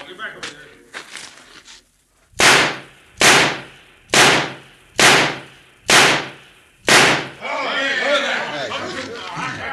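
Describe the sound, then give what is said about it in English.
Gunshots fired at a target in a shooting contest: six loud, sharp reports at an even, steady pace, preceded by brief talk and followed by a noisy wash of sound. “Every one of them shots is in the black. None of them dead center, but it's a perfect score.”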